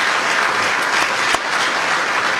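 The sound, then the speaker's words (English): Steady audience applause for the new Federal Reserve chair, a full, continuous burst of clapping that stays even throughout. “First was when Trump joked that he thought all the applause was for him.”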